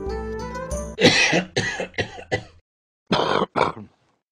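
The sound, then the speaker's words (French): A man's harsh coughing fit: five rough coughs in quick succession, a short pause, then two more. “Il fut d'un coup pris d'une grosse quinte de toux qui le laissa suffocant.”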